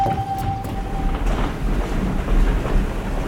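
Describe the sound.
A train travelling on rails: a continuous low rumble and rattle with broad noise that stays steady and fairly loud throughout, without talk.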